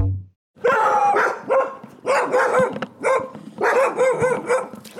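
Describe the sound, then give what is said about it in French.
A dog barks as it greets arriving visitors, letting out loud, sharp barks and yips in rapid repeated bursts. “c'est un chien qui nous accueille, mais c'est bien aussi.”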